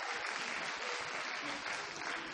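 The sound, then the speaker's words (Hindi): An audience gives steady, dense applause that stays fairly faint and even throughout, with no clear peaks. “मैंने इतना expect नहीं किया था आपका उत्तर, ठीक है ना, कि आप ताली से इसका स्वागत करेंगे”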